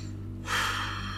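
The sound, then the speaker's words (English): A single deep breath drawn in: a soft, airy rush that swells after a short quiet moment and holds steady to the end, with no voice. “I take a deep breath”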